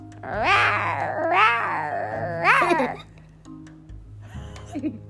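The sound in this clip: A human voice imitates a young lion's weak roar with a few strained, wavering cries that rise and fall in pitch, followed by a pause and a fainter, shorter growl.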